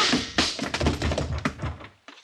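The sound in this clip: Blows strike a woman who is holding a rifle: a rapid, irregular series of dull thuds and scuffling knocks, with a short pause near the end before one last knock.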